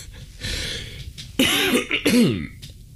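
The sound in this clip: Throat clearing from phlegm by someone recovering from a cold: a softer rasp gives way to two harsh, partly voiced clearing bursts, with no words spoken.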